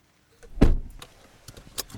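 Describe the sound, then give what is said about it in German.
A red Opel Corsa gives a solid thud like a car door closing, followed by softer clicks and a few light taps, with no talk over them. “Mit ihrem roten Opel Corsa holt mich Agnes Brasseel ab.”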